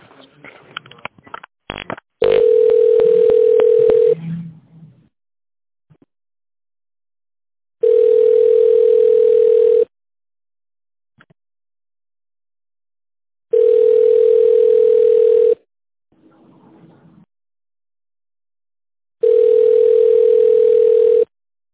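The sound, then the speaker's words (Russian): A telephone tone plays while a call is transferred: four long, steady mid-pitched beeps at even intervals with silence between them, preceded by a few clicks. “Сейчас, минуту, я переведу звонок.”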